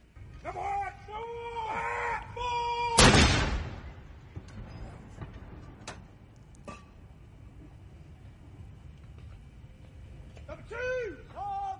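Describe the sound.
A single loud boom from the 62-gun royal salute fired at the Tower of London for the coronation of Charles III. It breaks in sharply and decays, and talking is heard before and after it.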